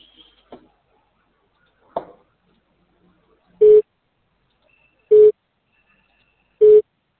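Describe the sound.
A telephone busy signal on a dialed call: three short, identical mid-pitched beeps, evenly spaced and loud, preceded by a few faint clicks.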